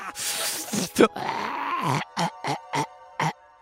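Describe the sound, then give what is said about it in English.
In a tabletop fantasy game, a voice imitates a wailing moan: a long, wavering groan, then a run of several short, rhythmic voiced bursts. “you see in front of you just this wailing moan of...”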